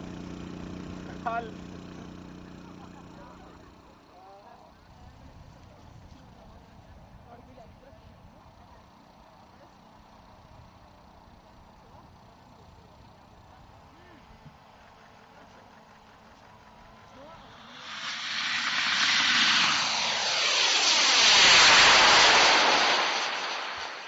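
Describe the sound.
School model rocket launching: after a long stretch of quiet background with voices, a sudden loud, broad roar bursts in and swells, holding strong for several seconds.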